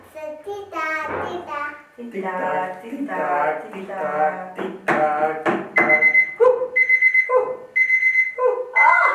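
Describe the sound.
An alarm clock rings in a few repeated high, steady beeps during the latter half, after and between stretches of excited voices, including a child talking.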